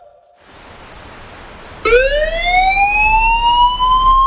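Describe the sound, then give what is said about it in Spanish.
A fire engine siren from the Tenerife fire brigade, heard at night. A steady, pulsing high tone gives way to a loud wailing tone that climbs steadily in pitch, with no voices. “Son las 4 de la madrugada. Suena un aviso. Alguien necesita ayuda en algún punto de la isla. Y mientras tú duermes tranquilo, Bomberos de Tenerife ya está en camino.”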